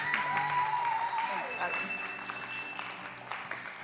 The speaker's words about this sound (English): let's put our hands together as we welcome Pastor Jill to the stage